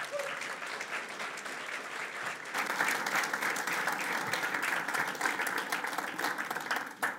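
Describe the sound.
Applause from an audience welcoming a preacher, quiet steady clapping that swells fuller after a couple of seconds and carries on to the end.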